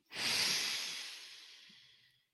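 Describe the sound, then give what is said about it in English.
A single deep breath drawn in: a loud, airy rush that starts abruptly, peaks early, then slowly tapers off over about two seconds, heard alone with no talk. “Deep breath in.”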